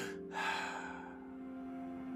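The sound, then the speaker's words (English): A crying-style double inhale and exhale: a brief sharp breath, a short gap, then a longer airy breath that fades away over a faint steady tone. “sometimes your body ends that cry with a double inhale, exhale, just like this.”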